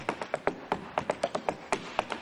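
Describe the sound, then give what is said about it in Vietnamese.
Tap shoes with metal plates strike a wooden floor during a tap dance by two priests, many sharp bright clicks in a quick, uneven rhythm, some in fast pairs. “Với những đôi giày bọc kim loại gõ lách cách trên sàn gỗ”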